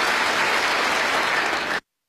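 Loud, dense applause from a standing audience at the Boao Forum for Asia annual conference. It holds steady and continuous for nearly two seconds, then cuts off abruptly.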